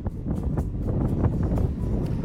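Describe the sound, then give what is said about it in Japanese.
Strong wind buffets the microphone as a continuous low, rumbling roar that surges in gusts throughout, with no voices. “これすごい風が吹いてるから声が大変なことになってるかもしれないね”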